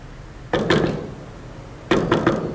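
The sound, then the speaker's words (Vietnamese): Knocking on a door comes in two bursts of three firm, hollow raps, separated by a short pause, loud against a quiet background. “Rồi, vô đi, gõ hoài đau tay đó.”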